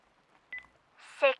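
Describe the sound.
Telephone being dialled, two quick keypad beeps in a row, followed by a voice speaking.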